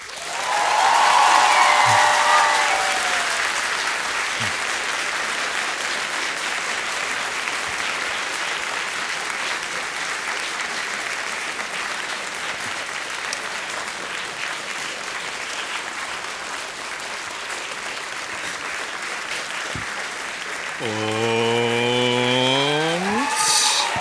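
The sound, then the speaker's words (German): Live audience applause in Berlin welcoming a comedian onto the stage: dense, steady clapping for about twenty seconds, with a voice briefly audible at the start and again near the end. “Begrüßt ihn gleich bitte mit einem großen Applaus.”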